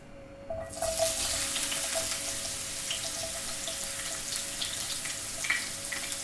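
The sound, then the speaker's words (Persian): Garlic sizzling in hot olive oil in a well-heated pan: after a brief quiet moment the hiss bursts in and settles into a steady, bright, crackling sizzle that holds at an even level to the end. “برای همین من مایتابه رو گذاشتم داغ شد، حسابی و روغن رو بهش اضافه کردم. خب حالا سیرم رو اضافه میکنم به روغن زیتونه.”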